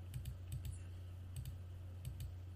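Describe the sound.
Soft computer keyboard clicks while someone looks up a movie, coming in a few quick pairs of faint taps over a low steady hum.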